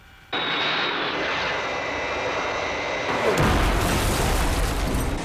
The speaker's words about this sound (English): We are under attack. three fighters with some kind of oval markings.